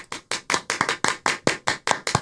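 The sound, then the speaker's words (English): Slow, regular hand claps from a show audience, a steady series of sharp, crisp slaps at an even tempo with no talk over them. “Hold on, let me get some claps for Bob.”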